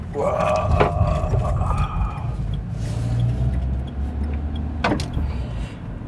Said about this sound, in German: Es rappelt ganz schön.